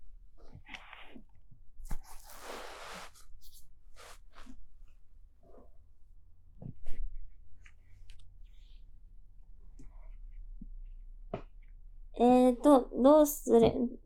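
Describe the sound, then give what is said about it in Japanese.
Things are handled with scattered rustling and small clicks, including a brief louder crinkle early on. A voice speaks at the end. “ちょっとごめんね、ガサガサしちゃって。”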